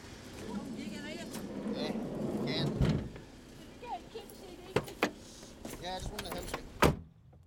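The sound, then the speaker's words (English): Bags being loaded into a car boot in Ireland, heard as a few dull thuds and clunks with rustling in between, under people talking. “Can I throw some stuff in the boot?”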